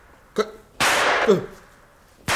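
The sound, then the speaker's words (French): Gunshots from a park: a few loud, sharp bangs. One is followed by a long, noisy, rumbling tail, and another bang comes after a short pause. “Des coups de feu.”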